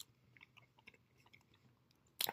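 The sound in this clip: Soft, moist chewing of a strawberry jelly donut dusted with powdered sugar. Faint, irregular mouth sounds are followed by a sudden louder noise at the very end. No one speaks.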